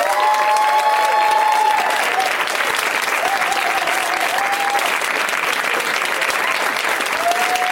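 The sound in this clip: Loud, steady audience applause greets guests coming out onto the stage at a live comedy show, sustained at an even level through the whole stretch.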